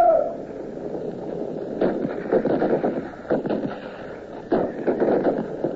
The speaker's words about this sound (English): There we were, inside a hollow square of red-coated backs. And the cavalry came on. Take aim! Fire!